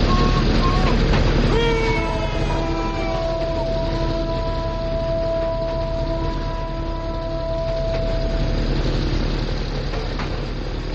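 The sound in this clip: A train runs fast along the tracks, too fast for the line, with a loud, steady rumble across the whole stretch and high, drawn-out tonal squeals gliding in and out above it.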